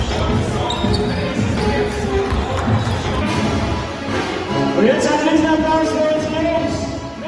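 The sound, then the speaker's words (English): A basketball bouncing during a professional game as a player shoots at the hoop: repeated dull thumps over a constant wash of background noise. “Look at he's shooting the hoop because he got that white woman in the stand.”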